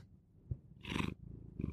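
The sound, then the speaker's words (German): A cat gives two faint, short calls, the first fuller and longer and the second brief, over low background noise. “Ich habe hier übrigens eine Katze.”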